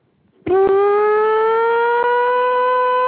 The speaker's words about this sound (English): It's like an air raid. Right. It's exactly yeah, like an air raid.